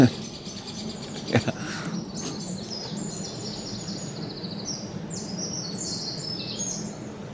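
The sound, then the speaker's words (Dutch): Blackbirds and great tits sing in spring woodland in the Vliegenbos, their faint, high chirping phrases rising over a steady low background rumble. “Het is natuurlijk vooral Merel en Koolmees, maar wel heel leuk, want die gaan natuurlijk helemaal op het orgel nu.”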